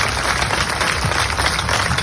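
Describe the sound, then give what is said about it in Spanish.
Applause rises from a crowd at a protest gathering in Pedroñeras, Cuenca, held after the killing of a mother and her two children, forming a dense, continuous wash of clapping at a steady, fairly loud level without voices. “en Pedroñeras, en Cuenca, donde ha tenido lugar esta concentración entre aplausos”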